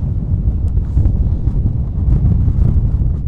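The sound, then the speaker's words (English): Wind blows near the Ames Monument, a National Historic Landmark close to a proposed wind farm, a loud, steady low roar buffeting the microphone with slight gusting swells. “After a brief visit there, here's what the wind sounds like up there.”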